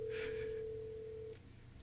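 A telephone tone on a call line sounds as a single steady, faint, mid-pitched hum lasting just over a second, then cuts off, leaving low background noise.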